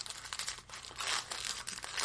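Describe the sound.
Crinkling and tearing of a pack of trading cards being opened, a continuous quiet rustle of wrapper with brighter crackling bursts and no talk.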